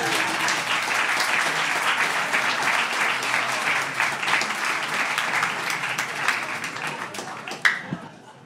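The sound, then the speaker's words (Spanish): An audience applauds the children at a small concert of film music, with dense, sustained clapping that tapers off near the end. “Bueno, vamos bien esto. Un aplauso para los niños.”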